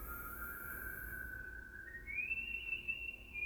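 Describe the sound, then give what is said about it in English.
Human whistling: one sustained, clear whistled note that steps up to a noticeably higher pitch about halfway through and holds there, heard alone with no talking over a faint low background hum. “Some really fucking good whistling.”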